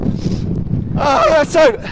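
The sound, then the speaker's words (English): Wind buffets the microphone while going downhill, a heavy, low rumble for about a second, then a voice talks over the continuing gusty wind noise. “We're just free falling down a hill now. The wind, buffeted by the wind. The wind is blowing snot out of my face.”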